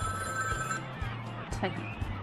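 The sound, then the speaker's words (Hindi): Telephone ringing with an incoming call, a repeating low ring pattern in pulses of roughly half a second, heard under a person talking. “ये कौन, उससे किसका phone आ रहा है? मेरे ख्याल से तुम्हारी अम्मी का फोन है।”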